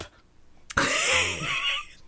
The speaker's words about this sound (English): Oh, we gotta snort.